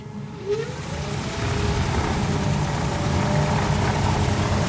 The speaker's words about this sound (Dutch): kunnen we de motor even opspinnen? Kun je even horen hoe dat klinkt, een elektrisch vliegtuig?